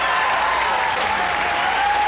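Thick, even audience applause as a band is welcomed onto the stage, a continuous wash of clapping with no pauses across the whole short clip.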